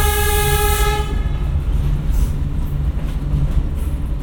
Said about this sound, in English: This train is like a rocking trip.